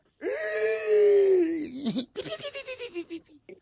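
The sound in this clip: A child crying: a long, loud wailing moan lasting almost two seconds, followed by a quick run of short, rhythmic sobbing bursts that fade toward the end.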